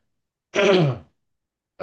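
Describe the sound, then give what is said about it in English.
A single cough bursts out, loud and short, and then stops abruptly into silence. “sorry for my cough”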